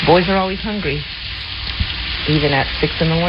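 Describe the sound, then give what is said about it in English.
Bacon sizzles in a frying pan, cooked early in the morning for a teenage son. A steady, loud crackling hiss runs throughout, with a voice speaking over it. “Or it was raining, but that was some bacon sizzling, sizzling away.”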